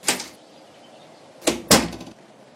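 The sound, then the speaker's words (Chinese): A door is opened for visitors, making a few sharp wooden clunks and clicks: one knock-like thud, a pause, then two more in quick succession. “Parker 为我们开门”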